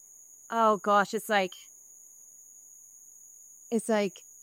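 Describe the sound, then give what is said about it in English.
A thin, steady high-pitched whine runs without a break through a phone call, staying constant beneath two short bursts of talk and the silent stretch between them. “Okay, I still am hearing like the little cricket thingy.”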